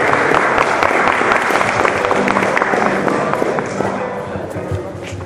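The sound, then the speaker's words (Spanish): Applause and crowd noise for a student string ensemble from a rural teachers' college, dense steady clapping filling the whole stretch with a busy, even texture that fades slightly toward the end. “Denle un caluroso aplauso a los compañeros de la rondalla.”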